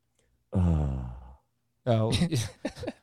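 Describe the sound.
A long, voiced sigh played as a sound effect, sliding downward in pitch and fading out. After a short pause, a voice starts talking.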